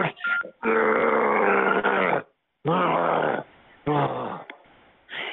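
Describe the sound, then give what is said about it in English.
Over a phone line, a person makes rough, low growls like a snarling dog, in several long, loud bursts separated by short gaps. “Are you just going to keep growling at me every time I say something?”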